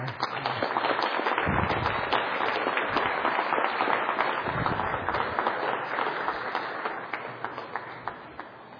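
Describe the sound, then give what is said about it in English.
Audience applause welcomes a visiting Tibetan lama to an evening class: dense, steady clapping fills the whole stretch and thins slightly toward the end. “So I'd like you to give him a hand of welcome.”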